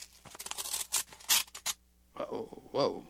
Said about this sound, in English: Inside the manila envelope, you'll find a smaller envelope. I'd like you to open that.